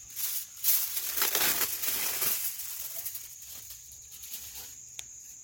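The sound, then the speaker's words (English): Aluminium foil is ripped, giving a faint crackling, crinkly tearing noise over the first couple of seconds that then fades to quieter rustles. “Let me rip this foil.”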